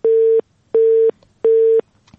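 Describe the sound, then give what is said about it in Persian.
Telephone busy tone after a call to a radio show is cut off: three loud, even beeps at one steady pitch, separated by short silent gaps, with nothing else heard. “متاسفانه تماسشان قطع شد. میریم طرف تماس بعدی. من نمیفهمم این هفته مشکل چی است که تماسا قطع میشه.”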